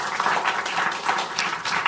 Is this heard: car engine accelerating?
no